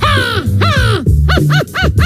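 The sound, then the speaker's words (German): A person imitates a crow's cawing with a quick series of loud, harsh, nasal caws, each arching up and down in pitch, with brief gaps between calls. “Mein Favorit absolut ist die Krähe.”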